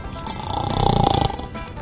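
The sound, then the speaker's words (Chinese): A single drawn-out snore from a bear character who has dozed off lying in a hot-air balloon basket. The rasping, throaty breath swells and then eases over about two seconds, with no talk around it. “安琪熊话还没说完呢，就睡着还打呼了呢。”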